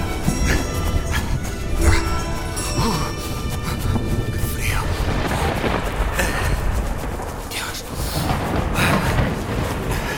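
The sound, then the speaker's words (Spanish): Thunder rumbles as a storm approaches, a dense and continuous roar with several sharper cracks and booms standing out now and then. It stays loud from start to finish. “Pronto se oyeron lejanos ecos de truenos que fueron haciéndose cada vez más cercanos y continuos. La inminente tormenta estalló por fin”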